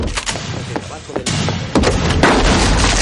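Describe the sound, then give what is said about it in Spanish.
A few loud gunshot bangs during a shootout in a 1997 film noir, set within a dense, noisy action soundtrack that stays loud throughout. “Esli mata al tercero y dispara a Ray que huye corriendo.”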